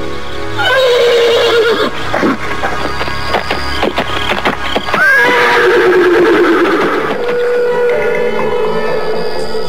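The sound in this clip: A horse whinnies loudly twice, each call starting high and sliding down into a long, wavering tail, with the second neigh lasting longer than the first.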